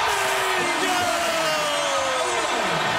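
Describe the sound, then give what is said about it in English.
Raucous crowd cheering fills a basketball arena during a 1999 Clippers home game against the SuperSonics, a loud, steady roar of yelling and whooping with a raised voice carrying over the top. “The Clippers crowd at that point is absolutely raucous.”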